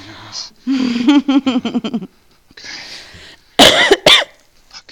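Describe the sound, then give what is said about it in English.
Coughing from allergies, a few harsh coughs mixed with breathy vocal sounds, ending in two loud, abrupt bursts. “Now the allergies kick in. Yeah, that's why I'm coughing and stuff.”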